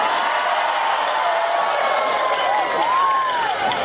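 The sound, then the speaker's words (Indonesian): Audience applause and cheering during a speech at a public gathering: a steady, moderately loud roar of clapping with a few whooping voices rising above it near the end. “Ora usah tepuk tangan, ra penting.”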